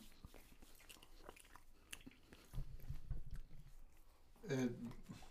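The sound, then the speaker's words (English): Soft snack food is chewed close to the microphone, with quiet, wet smacking and mouth sounds that swell into a few fuller bursts of bites toward the end. “Oh, it's real soft when you bite into it. Yeah. I'm just smacking all up in people's ears. ASMR.”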